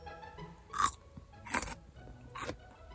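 Crunching bites into a fresh, juicy cucumber: three crisp, bright crunches spaced at an even pace, with faint chewing between them.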